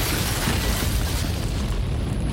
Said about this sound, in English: The blast blows out one side of the car.